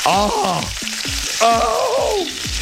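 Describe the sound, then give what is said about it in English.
Bacon sizzling while frying in a pan, a bright, continuous crackling hiss that swells and eases in a few uneven surges and then stays fairly loud throughout. “the bacon is sizzling now.”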